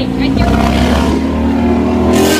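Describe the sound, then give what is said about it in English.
A motorcycle passes outside, its engine a steady, loud, low hum with a buzzing tone that carries throughout and lifts slightly near the end, with people talking over it. “that motorcycle, because that's necessary. Yeah, sorry, we're recording outside”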